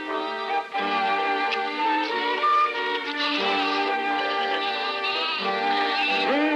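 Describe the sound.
A flock of sheep bleats in a 1945 Disney cartoon, many overlapping, wavering bleats forming a continuous chorus at a steady level throughout.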